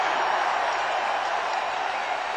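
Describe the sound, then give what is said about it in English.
An audience cheers and applauds in a dense, even wash of clapping and crowd noise that holds at a constant level throughout. “Everybody give him a big cheer.”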